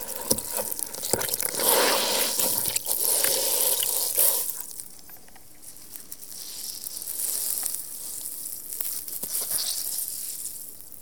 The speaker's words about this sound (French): je vais mettre de l'eau, donc pas asperger d'eau complètement, mais avec mon éponge, je vais tendre mon éponge sur toute ma surface.